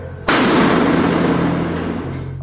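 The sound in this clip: A single loud gunshot, a sudden sharp blast with a long rumbling, noisy tail that slowly fades.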